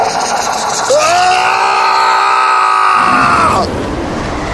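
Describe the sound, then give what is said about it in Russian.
A skull in a mirror screams, a single loud, sustained, eerie wail that swells in at the start, holds a steady tone, then cuts off abruptly near the end. “Костлявая рука резко потянулась назад, и череп завопил пуще прежнего.”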